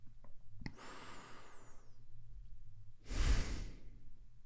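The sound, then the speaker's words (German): Two slow, deep breaths, soft and airy: a long drawn breath, then after a pause a shorter, stronger rush of air. No talk. “wie oft kannst du zwei oder drei tiefe Atemzüge nehmen? Und noch ein.”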